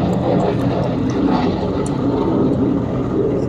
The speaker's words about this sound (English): That's a plane flying overhead, in case you didn't know.